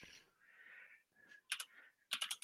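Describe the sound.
Faint typing on a computer keyboard while searching on Google: soft, hissy movement at first, then two quick clusters of crisp keystroke clicks toward the end.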